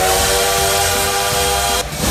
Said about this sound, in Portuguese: É, o trem-bala tá por aqui ainda. Já com o pezão no freio, que pra não passar reto na curva